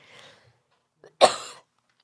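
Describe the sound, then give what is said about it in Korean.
A person coughs after choking: one sharp, loud cough burst, preceded by a faint breathy throat sound. “죄송합니다. 아우 이 사례가 걸려가지고요.”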